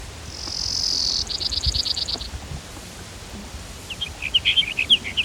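Brewer's sparrow song: a high, thin buzzy trill, then a rapid run of evenly spaced high notes, and after a pause a few more high chirping phrases over faint low background noise.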